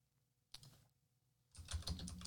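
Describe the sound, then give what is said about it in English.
Someone types on a computer keyboard. A single click comes first, then after a pause a quick, quiet run of clattering keystrokes. “I'll type in chat.”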